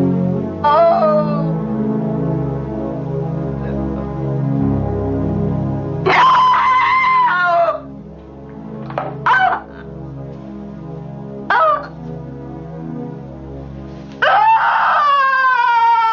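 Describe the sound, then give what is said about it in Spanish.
A mother cries inconsolably at home beside a dropped phone receiver, loud wailing sobs breaking out in several separate bursts with quieter stretches between them. “La madre llora desconsoladamente.”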